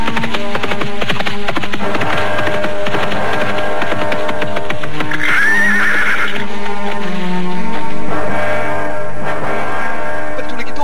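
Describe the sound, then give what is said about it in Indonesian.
A hurrying horse, fairly loud throughout, with steady clip-clopping hoofbeats and a sharp whinny near the middle. “Tetapi ketika dirasakannya langkah kuda itu semakin cepat, ia mulai berlari semakin lama semakin cepat.”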